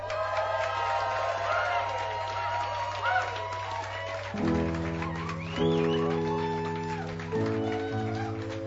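Cheering and whooping from an audience at a live songwriter stage in a pub, a loud, continuous crowd roar with sustained tones joining about halfway through.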